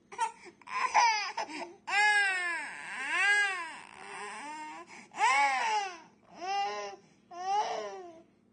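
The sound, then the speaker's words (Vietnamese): A man cries after being scolded by his boss, a series of high, wavering, wailing sobs in several separate bursts with short pauses between them. “Cùng là nhân viên mà sao nó lạ lắm, tôi bị sếp mắng thì chỉ biết ngồi đây và khóc hu hu.”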